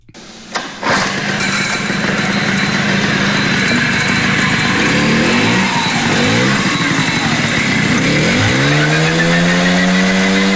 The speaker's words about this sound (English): what does the 1979 version of the Jialing CJ50 sound like? And this is it.